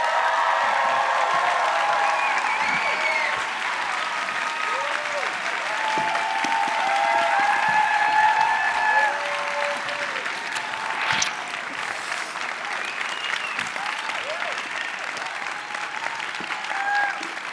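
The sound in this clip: Sustained audience applause greets a guest walking onstage at a live book event in Seattle, a dense, steady wash of clapping that holds at an even level for many seconds, with a few faint whistles or cheers threaded through it.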